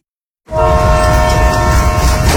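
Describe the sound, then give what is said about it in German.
A railway train horn blasts suddenly after a short silence, then holds a loud, steady multi-tone chord to the end with a rumbling rail noise underneath. “Seit 120 Jahren verbindet die Finchka Bahn Menschen, Orte und Geschichten.”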